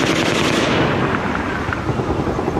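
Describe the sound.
A loud burst of rapid gunfire filmed up close at the Mandalay. The shots run together into dense, continuous cracking for the whole stretch.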